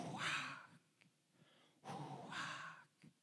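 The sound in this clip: A voice imitates breath or wind for the Hebrew word ruach with two long, breathy exhalations of airy hiss, each lasting about a second, separated by a short quiet gap with faint clicks.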